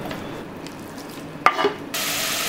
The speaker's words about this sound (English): And putting it in a cold pan. The idea is that the bacon slowly starts to render as the temperature comes up.